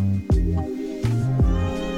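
A kitten meows a few times, short high-pitched cries with rich harmonics and falling tails, standing out clearly over a low steady background hum.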